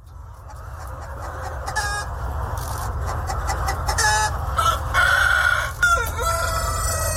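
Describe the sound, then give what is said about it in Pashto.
Vietnamese dragon chickens, a large, colourful farm breed, cluck and call, and a rooster lets out a loud crow near the end. A steady low hum runs underneath throughout. “د ویتنام د چرګانو د ځنګړی نسل ته ډراګن چرګان هم ویل کیږي ځکه چې دا چرګان د یو ډول خامار چې په انګریزي کې ورته ډراګن وای په شان رنگینخ پی لري”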